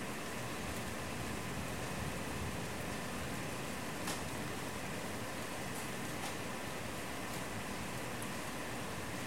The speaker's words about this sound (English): Most of what you're hearing sound-wise is either air conditioning from across the building, across the alley.